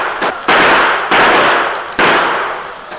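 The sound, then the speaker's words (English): Sharp gunshots from riders on horseback circling a house and firing at it. Several loud, cracking bursts come at uneven intervals, each fading into a rough, noisy tail. “The Indians, firing from the backs of their horses, returned the gunfire.”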